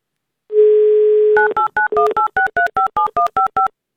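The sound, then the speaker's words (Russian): A telephone number being dialed to call a contest participant: a steady dial tone hums for about a second, then a quick, evenly spaced run of bright two-tone keypad beeps follows. “давайте проверим сейчас на удачу и будем, собственно, звонить.”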